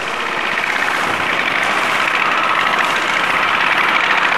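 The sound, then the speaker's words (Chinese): Small motorbike engine arriving at a market, heard as a loud, continuous buzzing drone that holds steady throughout without pauses or clear revving. “骑着他心爱的小摩托，我们的主人公玉儿饼抵达市场”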